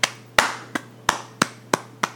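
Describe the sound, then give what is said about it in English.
Seven sharp hand claps, evenly spaced about a third of a second apart, each crisp and loud on its own over a faint low hum. “that was a clap”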